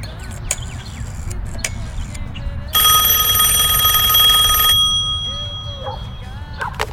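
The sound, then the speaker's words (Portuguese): A telephone rings once during a call, a bright electronic trill with a shimmering metallic tone lasting about two seconds. It rises loudly over a busy background with faint voices before and after it. “Eu vou ligar pra minha mãe.”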